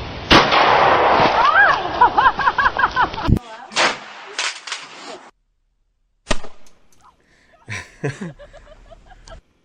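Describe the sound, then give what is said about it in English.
Young women fire shotguns, producing a few sharp, loud blasts spaced seconds apart. Excited voices talk and cry out between the shots. “For those watching, these are a lot of young ladies firing shotguns and almost killing themselves in some cases.”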